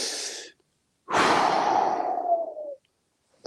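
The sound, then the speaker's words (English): Deep, heavy breaths from a man: a short breath is cut off at the start, then one long, loud, sighing exhale fades out, and a faint new breath begins at the very end. “I gotta take a deep breath, just thinking about it. Two deep breaths.”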